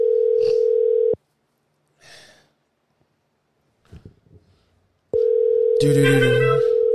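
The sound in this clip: An outgoing phone call rings on the line: a steady mid-pitched tone sounds twice, each burst about a second long. The bursts are separated by a long, near-silent gap with faint scattered sounds.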